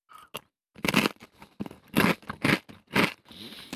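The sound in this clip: Crunching of spicy lime-flavoured Vulcano potato chips: a series of sharp, loud, crackly bites in an irregular rhythm, separated by short pauses.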